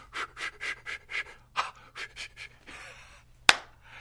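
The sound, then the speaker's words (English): A voice imitates the hard, rhythmic panting taught in prepared childbirth classes: many quick, breathy huffs in a steady pulse, ending with a single sharp click. “you go to those prepared childbirth classes, all you do is breathe hard.”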